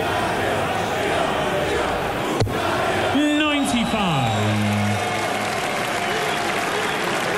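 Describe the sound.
A darts arena crowd cheers and claps in a steady, dense roar throughout, with a loud shout or bellow rising out of the noise midway.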